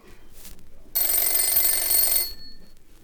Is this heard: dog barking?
no